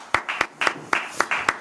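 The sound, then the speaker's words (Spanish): Audience clapping in a slow, even rhythm: about six sharp claps spaced roughly a quarter second apart, with a softer hiss filling the gaps between them. “Tranquilízate, coronel Tapioca. Un aplauso.”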